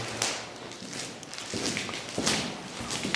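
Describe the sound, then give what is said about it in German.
Footsteps walking through dark corridors, a steady run of faint, soft steps over a constant low hiss. “So, wir gehen jetzt hier durch dunkle Gänge.”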